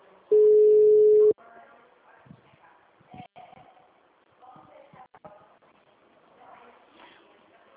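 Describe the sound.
A single steady mid-pitched ringing tone lasting about a second on an outgoing telephone call, followed by faint, scattered low sounds.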